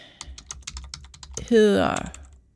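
Typing on a computer keyboard: quick, irregular clicks and taps at a steady pace, with a brief vocal sound breaking in near the end as the keystrokes continue.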